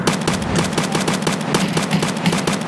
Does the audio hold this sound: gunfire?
yes